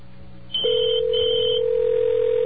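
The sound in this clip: A steady electronic telephone tone from a confused office phone system starts abruptly after a moment of low hum and holds level without a break, with a fainter higher tone running above it.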